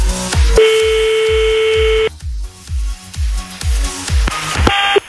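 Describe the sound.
Telephone keypad tones dial a number: a long steady electronic tone, then shorter beeps near the end, over a regular low thumping pulse throughout.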